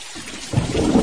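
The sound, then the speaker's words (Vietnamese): Thunder rolls through steady rain, a deep rumble swelling up about halfway through the short clip and holding loud over the hiss of falling rain. “Lúc này mưa vẫn chưa tạnh, tiếng sấm y ầm không dứt.”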